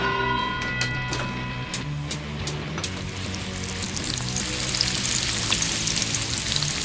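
Bacon sizzling in a frying pan, a steady, dense crackling hiss with scattered small pops that continues throughout.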